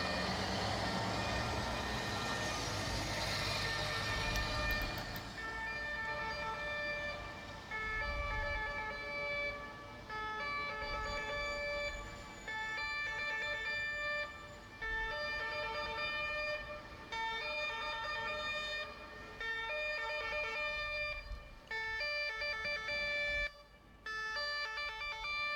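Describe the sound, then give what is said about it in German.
A police patrol car siren sounds in Graz, loud and alone, its steady tonal wail repeating in regular cycles with brief dips between them, over traffic rumble that is heavier at the start. “Also Funkstreife Polizei in Graz.”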